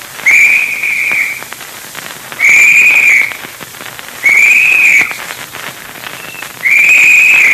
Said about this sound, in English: That's the boys signaling. All right, Dick. Keep moving ahead. How we know if anybody finds something? Well, he'll blow the usual signal. 3 short, quick blasts on the whistle.